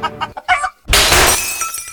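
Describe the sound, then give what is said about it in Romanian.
Glass breaking with a sudden loud crash and bright shattering spray that rings out and decays, preceded by a few short clucking fowl-like sounds. “Ah, iar s-a spart! Ai ales ieftin! Se vede! Când vine vorba de sticlă, calitatea contează!”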